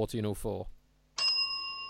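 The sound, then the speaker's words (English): A synthetic bell sound effect sounds a single bright chime that rings on with a sustained, steady tone, right after a short burst of speech. “No, I haven't got my bell ready, but I do have a synthetic bell, so fire away.”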